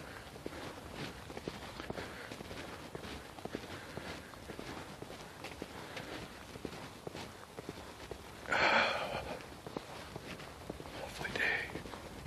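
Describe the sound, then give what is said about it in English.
Footsteps of a person walking outdoors: soft, steady, rhythmic steps throughout, with two brief louder bursts partway through. “Feels good to be walking. I'm not trying to push it today.”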